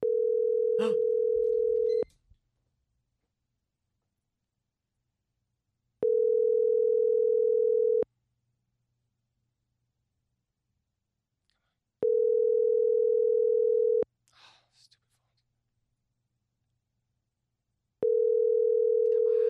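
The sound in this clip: Ringback tone of an outgoing telephone call: four steady, mid-pitched two-second tones separated by about four seconds of silence, the last one cut short, with a faint brief noise after the third.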